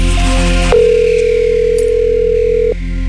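A telephone dial tone sounds while a call is placed to a quiz contestant: a loud, steady single tone holds for about two seconds after a brief blend of other tones, then cuts off abruptly.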